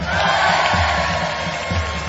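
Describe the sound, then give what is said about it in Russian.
Huge crowd gathered around a poet's monument fills the air with a dense, continuous clamor of many voices, loud and unbroken throughout. “Глядите-ка! А что это за огромная толпа вокруг памятника Артура Холлиты?”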